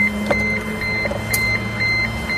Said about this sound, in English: Just listen to all these little servo motors.